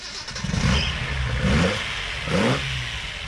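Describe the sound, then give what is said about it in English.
A Datsun car engine fires up and revs, a rough, mid-pitched rumble that swells twice with rising whines over a steady idle, with no voices. “There it is. The unmistakable sound of a Datsun.”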